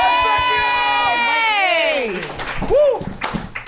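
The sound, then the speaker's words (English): Audience cheering and applause for a comedian being introduced, with one voice holding a long, loud shout that falls in pitch, then a shorter cry over the crowd noise near the end. “Guys, put your hands together. Put your hands together right now. Put your hands together right now.”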